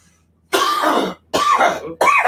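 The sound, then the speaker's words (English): Three harsh coughs from one person in quick succession, each a loud throaty burst with short gaps between, the first the longest, with no talk around them. “Gotta get my initial baby lung cough out of the way.”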